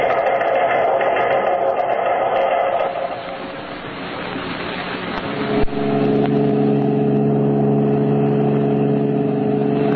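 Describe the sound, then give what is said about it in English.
Car engine droning as the car is driven along, a steady mid-pitched rumble that dips briefly, then returns with a dull thump and a firmer, even hum. No voices. “Believe killer Red Beaver and pal Ricketts are driving toward Kansas City.”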